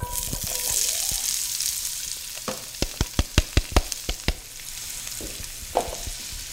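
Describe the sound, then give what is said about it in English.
Onions sauté in hot olive oil with a steady, bright sizzling hiss. Midway comes a quick run of sharp clacks and scrapes from stirring, then the frying carries on more quietly. “That olive oil is probably good to go at this point. I'm going to add these onions.”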